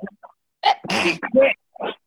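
A person sneezes, a short breathy burst among a few other brief vocal sounds, with quiet gaps between them.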